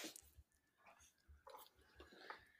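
Chewing melty food, with soft, wet, squishy bites and mouth sounds in an irregular rhythm, very faint and close.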